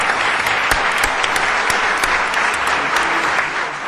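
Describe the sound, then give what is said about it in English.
Audience applause at a Court of Appeals ceremony, dense, loud clapping that stays sustained throughout without a break. “Your hands are going to wear out, I'm telling you. You keep applauding like that.”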